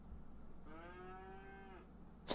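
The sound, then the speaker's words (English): A cow lets out a single moo, a steady, tonal low call lasting about a second that trails off slightly at the end. The setting is a cow loaded onto a platform. A brief sharp noise follows just after. “Everyone's got got the cow loaded up on this platform.”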